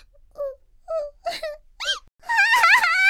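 A girl crying in a few short, whimpering wails separated by pauses. They build into a longer, louder, trembling wail at the end.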